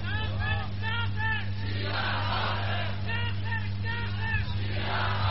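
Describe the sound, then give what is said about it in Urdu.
A crowd chants a slogan during a speech. Many voices shout in loud, rhythmic bursts, with stretches of murmur between them, over a steady low hum. “جیسے محترم نے نعرہ لگایا ہے”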